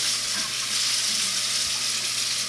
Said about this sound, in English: That water is awfully loud.